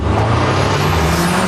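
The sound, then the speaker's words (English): An Audi car drives with a steady engine and road rumble, a continuous broad roar with a low hum underneath, heard alone without voices. “Hear that? That's the sound of Audi precision.”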